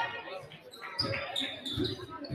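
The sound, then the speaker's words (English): A basketball is dribbled on a court during a women's game, a few dull, low thuds at an uneven pace, fairly faint under background voices and crowd noise. “Macy McDonald's dribbling the ball around. She's at the far end of the key.”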